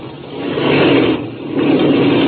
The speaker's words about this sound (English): Then I'll cut the engine.